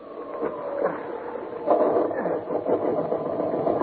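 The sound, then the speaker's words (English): A motor starts up and runs with a rough, steady mechanical churn, moderately loud and slightly rising in intensity partway through. “I'm going to make another attempt to get that motor working.”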